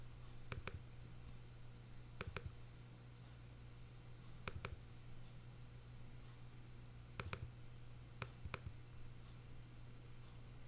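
Mouse clicks while picking a file on a computer: several crisp, quick double clicks spaced a few seconds apart, faint over a steady low hum.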